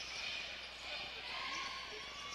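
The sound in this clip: Basketball dribbled on a court during a game: faint, repeated bounces under a steady wash of background noise.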